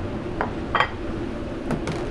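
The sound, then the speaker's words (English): A few light clinks of a utensil against a plate as Thanksgiving side dishes are plated: faint, sparse taps over a low steady background. “So here we're just going to plate it up.”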